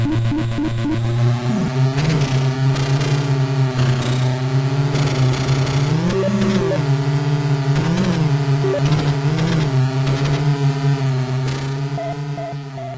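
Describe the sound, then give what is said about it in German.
A steady electric motor hum comes from toy jeeps driven over a breakfast table. The buzz is monotonous and droning at a constant loudness, with brief wavering bends in pitch partway through. “Also wir können jetzt hier mal reinhören, wie das klingt, wenn man mit Jeeps über den Frühstückstisch fährt.”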